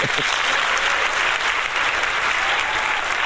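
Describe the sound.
An in-studio audience applauding: a sustained wash of clapping that stays loud and even throughout.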